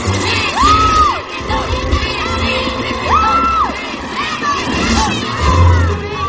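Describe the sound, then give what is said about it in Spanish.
In a fantasy film scene, a crowd in the stands cheers a Quidditch match during a storm. The loud, continuous cheering carries repeated shouts and rising whoops over a deep, steady rumble. “Los jugadores de Quidditch vuelan en sus escobas. El público aguanta el temporal en las gradas animando a sus equipos.”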